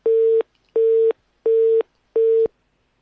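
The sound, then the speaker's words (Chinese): Telephone busy tone after a call is hung up: four short, evenly spaced, steady beeps, loud and alone. “郑书记很友好的挂断了我们电话。”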